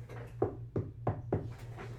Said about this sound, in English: I'm going to find some wood and knock on, hold on.